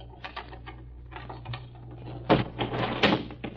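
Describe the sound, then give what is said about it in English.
A desk being opened gives a series of light clicks and rattles, then a louder clattering, scraping burst toward the end over a low steady hum. “Well, here we are. In just a second, I'll open the desk.”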